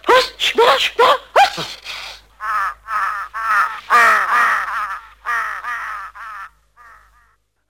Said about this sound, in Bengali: কাক, অসভ্য কাক, এই রেলিং এসে বসছে।